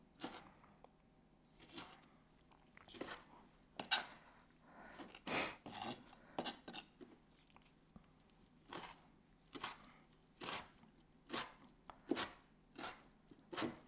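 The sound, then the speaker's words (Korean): Food chopped with a knife on a tray, cut crosswise: many quick, crisp cutting strokes in uneven bursts, fairly faint, with no voices. “그래서 쟁반에 깔아놓고 십사가로 막 썰어주세요.”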